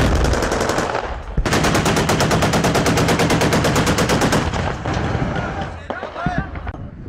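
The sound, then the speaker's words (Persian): Rapid automatic gunfire during urban fighting as Syrian government forces push into Aleppo after heavy airstrikes. A dense, loud, steady string of many shots fills the middle, with heavy rumbling fire before and after. “بعد از ضربه های زیادی هوایی و تیراندازی ها نیروهای سوریه به داخل شهر حلب حرکت می کنند.”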